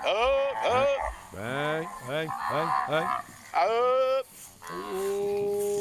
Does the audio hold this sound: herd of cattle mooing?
yes